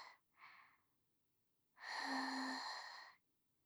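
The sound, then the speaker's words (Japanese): Someone softly blows on hot food to cool it: a couple of short, quiet breaths, then one longer, steady breathy blow with a faint voiced hum. “それじゃあ、まだちょっと暑いだろうから、よーく冷ましてあげるわね。”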